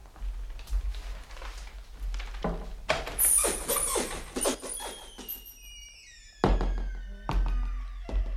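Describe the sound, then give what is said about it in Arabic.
Knocking on a door: three heavy, sharp thuds fall near the end, spaced about a second apart. They follow a busy stretch of other layered sounds and effects. “وذات صباح دق الباب عليها فأرهفت أذنيها.”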